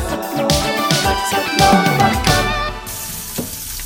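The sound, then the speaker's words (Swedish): Sizzling from three frying pans at once, cooking meat, onions and bread: a steady, dense, crackling hiss that continues without a break, easing slightly toward the end. “Det som är lite unikt, det är att vi för första gången har tre pannor igång. Trots att det är så få ingredienser och lättlagat så har vi tre pannor. Det är köttet och löken och brödet som kommer på oss samtidigt.”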